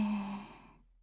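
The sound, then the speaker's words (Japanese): A slow exhaling breath in a breathing exercise: one soft, airy sigh with a faint voiced tone that gradually fades into silence within a second. “吐いて、吐いて、”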